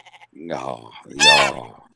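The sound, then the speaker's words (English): A goat bleats twice: a short wavering cry, then a louder, longer quavering bleat. A few faint soft sounds come just before. “The goat. Beautiful.”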